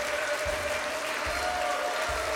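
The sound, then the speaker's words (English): A church audience claps steadily in a dense, soft wash, under a sustained musical tone and a few low, regular thumps. “Come on, keep clapping, keep clapping, keep clapping, keep clapping,”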